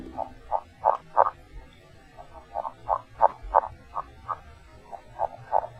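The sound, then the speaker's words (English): A male northern red-legged frog gives its low-pitched underwater mating call: many short, soft croaking notes in steady, rhythmic groups that repeat over a quiet, murky background. “Males have a low-pitched, underwater mating call consisting of 5 to 7 notes, and it sounds like this.”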